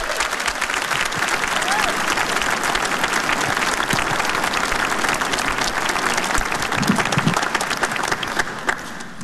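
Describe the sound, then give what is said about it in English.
Audience applause welcoming a speaker onto a stage, dense sustained clapping from a large crowd that holds at an even loudness throughout, mixed with some crowd noise. “So please, let's join our hands together and give a big Texas welcome to Mr. Hal Donaldson.”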